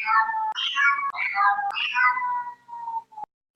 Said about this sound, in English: it's a cat.